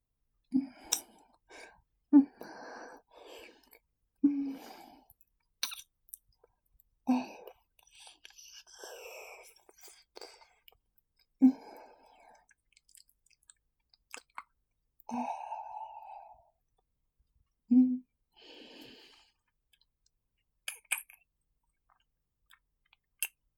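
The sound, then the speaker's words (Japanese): Wet licking and mouth sounds move along the jaw toward the temple: many soft, intermittent slurps and smacks with quiet breaths and sighs between them, close and intimate. “顎からこめかみの方を舐めていきます。”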